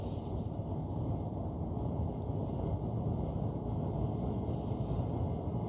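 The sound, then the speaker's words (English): A car driving down a road gives a steady low rumble of engine and road noise that stays even throughout, with no talk. “now I'm driving down the road”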